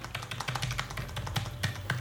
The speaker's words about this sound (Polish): naciskam strzałkę w lewo